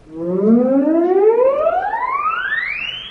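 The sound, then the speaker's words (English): A theremin in a museum planetarium produces one smooth tone that glides steadily upward from low to high over about three seconds as a hand nears its pitch antenna. The tone is bright, loud and even. “she stands behind the theremin, which looks like a wooden podium with a barely noticeable antenna. My left hand, the closer it gets to the pitch antenna, it sounds like this.”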